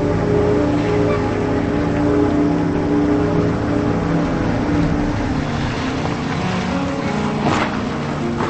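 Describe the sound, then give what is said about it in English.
Engine of a Range Rover driving down a dark dirt road, heard as a steady, loud low hum and rumble throughout with no talk. “Later, she drives down a dark dirt road.”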